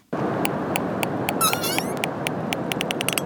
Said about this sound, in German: Auch wenn ihr Gesang für uns Menschen etwas befremdlich klingt, Grindwale sind soziale und kommunikative Wesen.